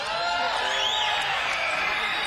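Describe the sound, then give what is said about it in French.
Concert audience shouting and whistling, a dense, loud and steady roar of crowd noise with whoops and a brief thin whistle rising through it. “Vous pouvez continuer à crier et siffler si vous voulez, mais c'est pas si bon comme ça.”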